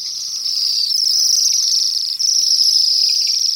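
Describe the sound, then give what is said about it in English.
A flock of hundreds of Bohemian waxwings, winter visitors from northern boreal forests, calls from the top of a poplar near an apple tree. The thin, high trills blend into a dense, steady, buzzing chorus that continues throughout, with no voices. “These are Bohemian waxwings, erratic winter visitors to our region from their nesting grounds in the boreal forests of the north.”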